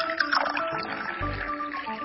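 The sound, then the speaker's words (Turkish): Hot water is poured over fine köftelik bulgur in a deep bowl. The splashing, trickling pour is continuous and moderately loud, with a brief lower gurgle partway through. “Önce derin bir kap alalım. Köftelik bulguru kaba koyalım. Bulgurun üzerine sıcak su koyalım.”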